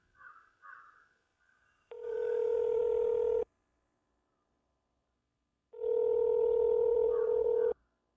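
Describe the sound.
Telephone ringing tone as a call is placed: two long, steady, mid-pitched tones separated by a pause of silence, preceded by a few faint, brief chirps.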